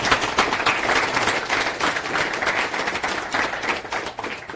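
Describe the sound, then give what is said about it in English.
An audience at a conference talk about Ubuntu and Matrix gives a round of applause, a continuous, crackling wash of many claps at a steady moderate level with no talk over it. “So thank you very much, and give them a big applause.”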